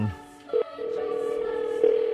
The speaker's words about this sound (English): Let's see how this goes. My dialing skills work out right.